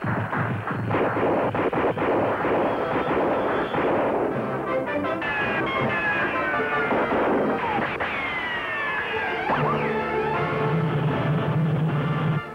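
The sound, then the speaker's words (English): Rifle fire opens with a rapid burst of sharp cracks, followed by dense, loud noise with sweeping tones. Voices can be heard in the mix. “Rifle fire from Dragon.”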